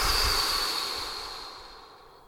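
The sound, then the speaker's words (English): A deep breath exhaled through the mouth during a guided relaxation exercise, a long, soft, airy rush of breath that fades steadily away over about two seconds. “One more breath, big inhale. Exhale through your mouth.”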